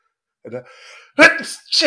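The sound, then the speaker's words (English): A person sneezes once, a short breathy build-up giving way to a sharp, loud burst, followed by another brief breathy vocal sound. “I had to sneeze.”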